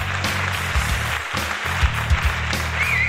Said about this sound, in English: There's that applause. There we go. There we go. Yes, yay!